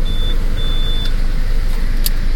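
Engine noise from a car waiting behind a driver: a steady, loud, low rumble that runs unbroken through the whole moment, with no talk.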